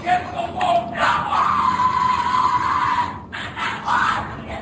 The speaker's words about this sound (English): What you're hearing is the first recording ever made of the Skull and Bones initiation ceremony. It has never been broadcast before.